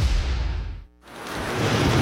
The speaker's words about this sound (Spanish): Son las 6 de la mañana, está lloviendo, hace frío